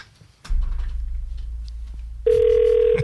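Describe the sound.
A telephone rings on a call: over a low rumbling hum, a steady, loud single-pitched ringing tone starts near the end and holds until the end.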